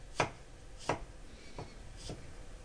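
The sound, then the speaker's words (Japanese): A knife chops thinly sliced garlic and ginger into fine strips: four crisp, faint strikes at a slow, slightly uneven pace, with no talk. “薄くスライスしたニンニク、生姜を端から細切りにしていきます。”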